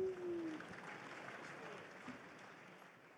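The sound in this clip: Audience applause welcomes two hosts at the first live edition of a VentureBeat event, a dense, steady clapping that tapers slightly toward the end, with voices mixed in.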